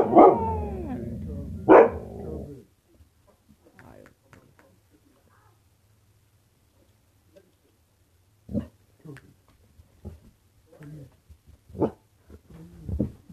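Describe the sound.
A puppy barks twice loudly at the start. After a long quiet stretch, it gives several fainter, short yips spaced irregularly.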